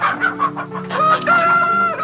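A rooster and hens in a henhouse: short clucking bursts open, then a loud, long crow rings out and holds to the end.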